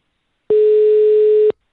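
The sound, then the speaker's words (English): Telephone tone: a single steady, clean electronic beep lasting about one second, loud and alone, starting and stopping abruptly against silence. “This dial tone rules.”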